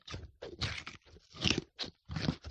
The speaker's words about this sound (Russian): Лошадь схватила нос морковку и с удовольствием ее съела.